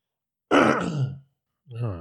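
A rough, gravelly throat clearing: one loud burst lasting under a second, then a brief pause and a shorter, softer voiced rumble.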